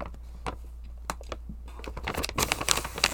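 Pet food bag being opened: faint scattered clicks and light handling at first, then louder, busier crinkling and rustling of the packaging in the final second, with no talk.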